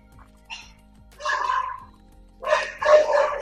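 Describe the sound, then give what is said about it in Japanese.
A pet dog barking at home in a few short bursts of yapping barks with pauses between them, over a quiet, low electrical hum. “うちのワンコが多分 なんでしょうね。”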